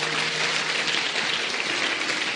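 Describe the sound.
An audience applauding and cheering during a church service, a dense, steady wash of clapping and crowd noise that holds at an even loudness throughout, with a faint low hum running underneath.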